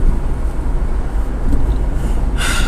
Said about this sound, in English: Just driving to work.